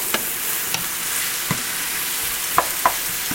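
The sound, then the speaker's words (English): Onions sizzle steadily as they sauté in a pan and are stirred. A constant hiss of frying runs throughout, broken by a few sharp scrapes and taps of the spoon against the pan. “And I'm stirring again from the outside to the center and all around to get this sauteed.”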